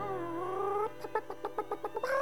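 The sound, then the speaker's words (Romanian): A hen clucking: a drawn-out harmonic call, then a quick run of short, evenly paced clucks, ending on a rising squawk. “Baba avea o găină”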